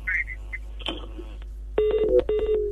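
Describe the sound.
Telephone dialing tones as a call is placed during a radio call-in show: a couple of beeping bursts follow faint voices, all over a low steady hum.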